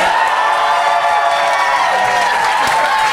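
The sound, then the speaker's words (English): Audience applause and cheering at a live comedy debate show: a dense, steady roar of clapping mixed with whoops and shouts that carries on without a break. “But if you think Esther and Ben made the best case, please applaud now.”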